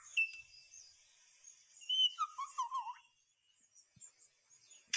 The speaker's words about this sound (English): That's a bird. That's on a camera? No, no, that's straight up a bird.